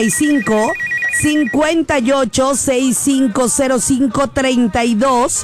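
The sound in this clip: A telephone rings on a radio station's call-in lines, a warbling electronic ring in the first second and a half. Someone talks continuously over it and throughout the rest.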